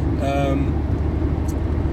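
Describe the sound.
A car drives along a road in the dark. Its low, steady engine and road rumble fill the cabin without a break, and a voice is heard briefly near the start.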